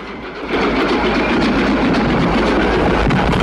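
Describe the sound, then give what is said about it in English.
A white train pulls in at a platform with a loud, steady rumbling roar and some rail clatter. The sound swells at the start and then holds constant. No one speaks. “A white train heads towards the waiting Susanna and Andrew on the platform.”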